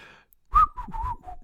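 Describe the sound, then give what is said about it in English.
Someone whistles a short phrase of a theme tune. The notes are clear and mid-pitched, and they begin after a brief quiet gap, with no talk over them. “And there we are. And that's whistling.”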